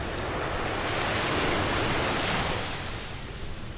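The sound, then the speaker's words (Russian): Ocean waves breaking against rocks below a steep cliff: a broad, rushing roar of surf that swells gently and then eases off, with no voices. “внизу простирался океан, волны которого разбивались о скалы.”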